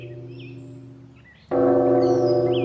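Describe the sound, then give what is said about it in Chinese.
A temple bell is struck at dawn in a monastery. One loud strike lands midway over the fading hum of an earlier stroke, and its rich, steady tones ring on with faint bird chirps above. “黎明时我一听到钟声精神就振奋起来，打坐念经特别专心呢”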